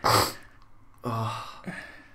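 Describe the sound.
A phlegmy throat clearing from a person, a couple of short rasping bursts separated by a brief quiet gap, fairly soft and with no talk.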